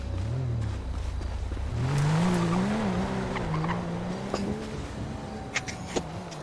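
A BMW car engine drones in a video game as the car drives, its tone climbing steadily around two seconds in and then holding a wavering, revving pitch, with faint tire-squeal textures and a few short clicks near the end.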